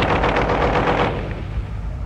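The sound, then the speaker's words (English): A caliber .50 machine gun fires a rapid burst of heavy, booming shots for about a second, then the sound fades into a lingering rumble. “The caliber 50 machine gun.”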